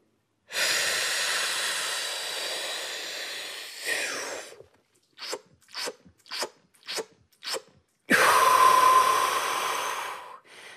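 A trained free diver's deep packing breath: one long, rushing inhale, then five short, sharp gulps of air in a quick rhythm, followed by a second long inhale.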